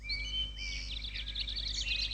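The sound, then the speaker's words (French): Birdsong sound effect: many high chirps and twittering trills, fairly faint, running throughout over a steady low hum. “Ramène le bruitage des oiseaux, tout ça.”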